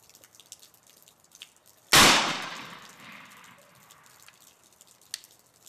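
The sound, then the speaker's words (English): A musket fires a single sharp, loud shot. A rushing tail fades over about a second, then faint scattered clicks and taps follow in near quiet. “Fire your musket!”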